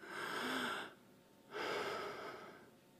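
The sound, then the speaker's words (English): Two slow, audible breaths taken during a group breathing moment in a prayer talk: soft airy rushes, each under a second long, separated by a brief quiet pause, with no speech. “By the way, you just breathed, didn't you? Let's just breathe together.”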